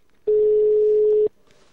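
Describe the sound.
A single telephone ringback tone sounds on an outgoing call: one loud, steady, even-pitched buzz lasting about a second, with quiet line hiss before and after.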